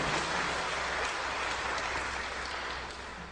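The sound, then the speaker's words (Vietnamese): An audience at a lecture applauding itself, steady dense clapping that holds at an even level and eases off slightly near the end. “Quý vị vỗ tay cho chính mình nào.”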